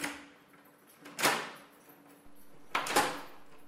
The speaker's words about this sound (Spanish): Me sacudí los zapatos en el felpudo y justo al abrir la puerta